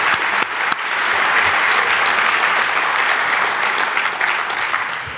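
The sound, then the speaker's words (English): Conference audience applauding the event's translation team: warm, sustained clapping from a large crowd, opening with a few sharper claps and then settling into a loud, even wash of applause that runs throughout. “Please give a warm round of applause for the translation team, who does really awesome work this year.”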